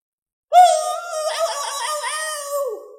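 A loud, sustained howl from an ancient ape: a strained, harmonic scream-like cry that holds steady for a few seconds and sinks slightly lower as it trails off.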